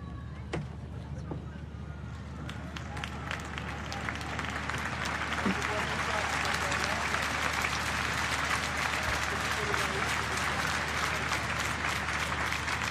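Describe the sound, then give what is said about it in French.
A large crowd applauds and cheers joyfully at an outdoor papal Mass celebrated by Pope Leo XIV, the clapping swelling louder about midway and continuing as a dense wash beneath speech. “Et on entend la foule et la joie,”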